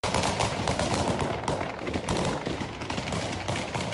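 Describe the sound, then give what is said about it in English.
Automatic gunfire as gunmen fire volleys into the air to scatter protesters in Kabul. A dense, rapid rattle of shots stays loud and unbroken throughout, with no talk. “Taliban gunmen fired in the air on Tuesday to scatter protesters in the Afghan capital of Kabul, witnesses said, as video showed scores of people scurrying to escape volleys of gunfire”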